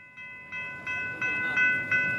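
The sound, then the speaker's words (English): Tram rolling on rails on the route from the San Isidro border crossing to downtown San Diego: a steady low rumble with bright, sustained tonal whines on top that build in loudness in short steps. “Once you cross the Mexico-US border at San Isidro in Tijuana, it's a half-hour tram ride to downtown San Diego.”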